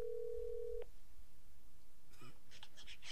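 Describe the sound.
A telephone call is placed: a steady tone sounds, then stops, and after a pause a short series of electronic beeps follows, with no voices.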